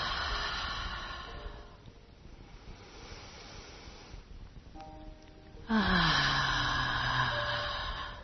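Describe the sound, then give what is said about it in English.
People take deep breaths in and out together, making broad airy rushes of inhaling and exhaling. The final out-breath is voiced as a loud, falling sigh. “let's take our three big fellowship breaths together. In and ah.”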